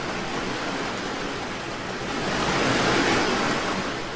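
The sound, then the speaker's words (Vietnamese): Ocean waves surge around a small rowing boat, making a continuous broad roar of churning water. The wash swells noticeably louder past the midpoint, then eases back, with no voices over it. “Lại một con sóng nữa cuộn lên làm cả bọn ướt nhẹp khắp đầu khắp mặt.”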